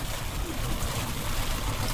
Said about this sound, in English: Well, we got flooding on the road here. This is the last of my lowland roads, though. So pretty good. Only one flooding spot.